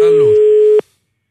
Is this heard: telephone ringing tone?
yes